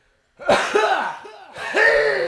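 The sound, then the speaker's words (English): Coughing comes in a few harsh, rasping bursts, each with a throaty voiced tail, loud and close together with short gaps and no talk around them. “Meanwhile, here is the cough.”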